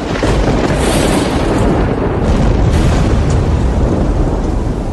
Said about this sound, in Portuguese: Depois que gritou, os sete trovões responderam com um estrondo.